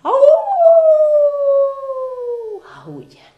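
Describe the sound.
Coyotes howl: one long, loud, tonal cry that rises quickly at the start, holds a steady note that sinks slowly, then breaks off into a brief rough trailing sound.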